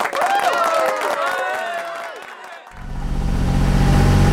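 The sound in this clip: Low, steady engine drone of a sailboat motoring with its mainsail hanging limp in zero wind and light fog, starting after a burst of crowd noise fades out and then holding loud and even.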